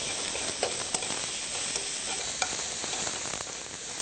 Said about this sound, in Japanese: そしたらごぼうを入れていきます。炒めていきます。